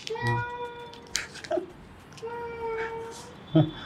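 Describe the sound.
A person imitates a cat's meow during a challenge to make the sounds of five different animals: several drawn-out, wavering mews separated by short pauses, fairly soft, ending with a brief sharper cry.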